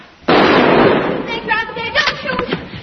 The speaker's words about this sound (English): Oh, what's that? Somebody's shooting at him.